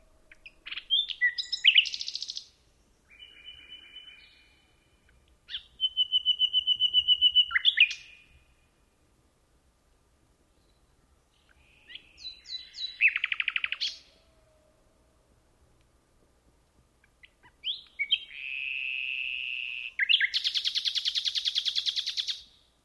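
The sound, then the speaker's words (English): A pair of nightingales sings from a chestnut thicket in Hempstead Forest, Kent, England, in several separate phrases of clear whistles, rapid trills and high buzzy notes, each broken by quiet pauses, with the final phrase loud and rich. “We leave you this week with a celebration of nightingales.”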